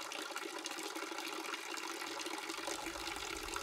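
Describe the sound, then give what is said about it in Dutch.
Water flows steadily along a city street in Hasselt around midnight, a continuous even rush that stays level with no breaks or voices. “Water zorgt voor beweging, voor gezelschap. Waar water stroomt, ben je niet alleen.”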